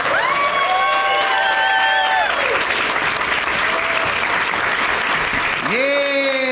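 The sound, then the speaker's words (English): Studio audience in San Antonio applauding and cheering as guests come out, a dense, steady roar of clapping throughout with high whoops and shouts rising above it at the start and again near the end. “There they come. They're really making you applaud for a long time.”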